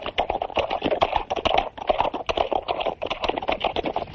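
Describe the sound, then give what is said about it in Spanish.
A horse's hooves clip-clop at a slow, solemn pace as it carries a body in a medieval procession toward city gates, a dense, steady run of many sharp hoofbeats at even loudness. “El caballo cabalga con solemnidad portando el cadáver de Rodrigo”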